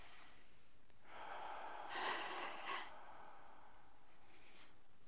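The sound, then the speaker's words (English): A deep, comfortable breath is taken with eyes closed during a relaxation exercise in an EFT healing session. It is one faint, airy swell of breath that peaks near the middle, with no talking. “So let's close our eyes and we'll take a comfortable breath.”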